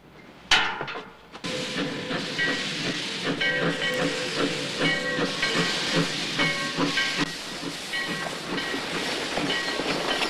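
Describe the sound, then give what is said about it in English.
A steam train pulls into a small town station, smoke pouring from its funnel. A sudden onset brings a dense, continuous hiss and mechanical rumble with steady tonal lines that carries on loudly to the end. “a train pulls into the town station, its funnel emitting plumes of smoke.”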